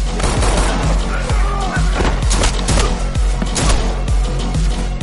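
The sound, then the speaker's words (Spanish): Rapid gunfire in an action-film fight scene from John Wick: Chapter 2, with many sharp shots cracking in quick succession over a loud, dense background that never lets up. “Derriba a uno y le dispara en la cabeza. Acaba con tres más.”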